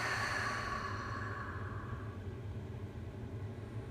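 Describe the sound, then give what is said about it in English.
A slow exhale through the open mouth during a guided breathing exercise, a soft breathy rush that fades away over about two seconds, leaving a faint low rumble. “And open the mouth, exhaling.”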